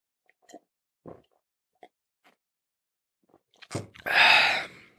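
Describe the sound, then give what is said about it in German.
Drinking a beverage: a few faint, soft clicks of sipping and swallowing spaced apart, then a louder breathy burst near the end. “Ich muss mal kurz was trinken.”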